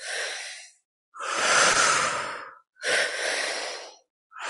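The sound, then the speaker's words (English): Loud, airy breaths through the mouth follow a breathwork pattern of two inhalations into the belly and chest and one exhalation. Each breath is separated from the next by a brief pause, with no talk. “We are going to be breathing just using the mouth today. So it's into the belly, up into the chest, out through the mouth.”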